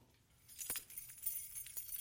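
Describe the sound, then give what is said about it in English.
Faint metallic jangling and clinking of a set of keys, in a few light rattles over low background hiss. “I've got the keys.”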